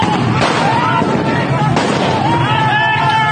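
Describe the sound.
Grenades explode on a fire-lit street in a city neighbourhood during unrest: two sharp bangs over dense, continuous crowd and street noise, with voices heard throughout.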